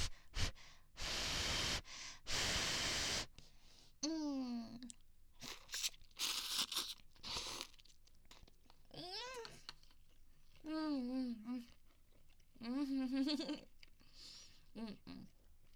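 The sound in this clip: Slurping ramen noodles in loud, noisy bursts, followed by murmured vocal sounds and breathy sighs that come and go between quieter gaps.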